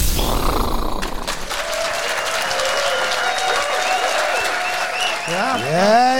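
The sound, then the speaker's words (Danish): A happy audience cheers and applauds at a show in Kolding, with dense, steady clapping and shouted cheers. Voices call out together, and a few whistles rise over the applause near the end. “Det er lyden af glade mennesker i Kolding.”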